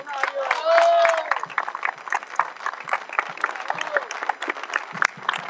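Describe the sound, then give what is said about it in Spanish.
A crowd at a political rally breaks into loud, dense applause to welcome a guest, a local mayor. The clapping stays busy and continuous throughout, with a brief voice rising above it early on. “Le recibimos con un gran aplauso.”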